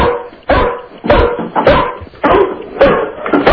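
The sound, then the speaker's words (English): A dog barking loudly on cue among a group of dogs urged to bark together: several sharp, full barks in quick succession with short, uneven gaps between them. “Go, everybody bark. Just bark. Get your dogs to bark.”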